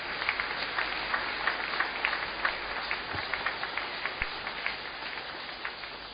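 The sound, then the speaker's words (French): A church audience applauding to acclaim the Lord during a French-language worship service; faint, steady clapping from many hands with small, evenly spaced peaks throughout. “Oui, nous pouvons acclamer le nom du Seigneur.”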